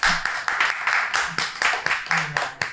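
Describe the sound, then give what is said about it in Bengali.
An audience claps for a quiz team, with many sharp claps falling in a quick, regular rhythm and voices mixed in. “Team number 2-র জন্য হাততালি হোক।”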